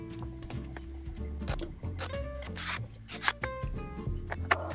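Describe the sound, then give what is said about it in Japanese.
A letter is pulled out of an envelope: paper rustles and slides in a few brisk, zipper-like bursts, mostly faint, with a couple of sharper crinkles near the end. “どうです今、封筒から出してるな。”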